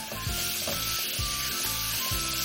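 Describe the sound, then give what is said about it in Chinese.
Spring bamboo shoots sizzle loudly as they are tossed into a hot wok over high heat with light soy sauce for twice-cooked pork, a constant crackling hiss broken by a few low, dull knocks of stirring. “首先生抽开大火，把这个春笋倒进去，出锅前稍许的加点糖调一个味儿。”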